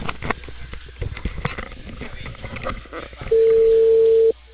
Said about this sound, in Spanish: Este es el operador. Está llamando. Y está timbrando. Y así suena, mira.